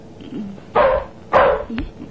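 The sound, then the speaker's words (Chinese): A dog barking at the door of a house: two loud, full barks spaced apart, followed by a short yip, with soft whimpering tones at the start. “睇只狗好似知道呢件事咁，佢帮手叫门。”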